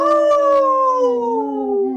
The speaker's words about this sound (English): In this portion of the show, we like to bring awareness to our Minnesota wolf population.